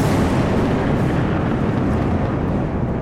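Thunder blasts across the landscape on a dry day with no rain, sounding as a loud, continuous low roar that holds steady throughout.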